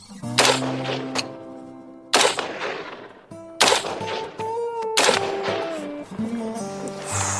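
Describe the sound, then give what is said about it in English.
Sharp gunshots from an AR-15 rifle fired at a shooting session, a few loud cracks spaced well apart, each trailing off in a decaying ring, with no talk. “Wesley passed me the AR-15 and taught me the ins and outs of the rifle. Then it was time to shoot.”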